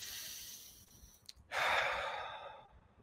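A deep breath ends in one long, airy exhale after a soft lead-in. The whole sound is quiet.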